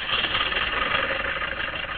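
A car engine runs at a steady, continuous mid-pitched drone with a slightly rough, pulsing texture and no talk over it.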